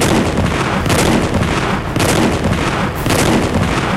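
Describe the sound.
Gunfire rings out around an armored personnel carrier racing toward a lagoon: a loud, dense, continuous barrage of rumbling shots with a few sharper bursts breaking through, with no voices.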